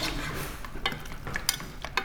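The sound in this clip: Ingredients being smashed down in a sizzling pan with soy sauce and pepper: a quiet, steady frying hiss with a few scraping taps of a utensil against the pan.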